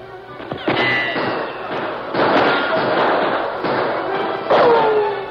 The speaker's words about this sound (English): His war cry was followed by fast shots.